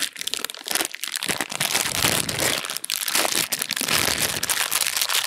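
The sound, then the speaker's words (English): A voice imitates a Sour Patch Kids candy bag being opened during a quiet movie, a continuous noisy crinkling and crackling that stays loud for several seconds. “some Sour Patch Kids and he was like trying to open the bag. And it's like, respect that we're all here together. Wait for like some noise in the movie to open the bag. It's like dead silence and you just hear.”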